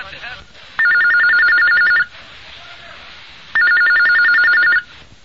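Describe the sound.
A telephone rings before a call is answered, giving two rapid, trilling bursts of electronic bell ringing, each lasting over a second, separated by a short gap of quiet.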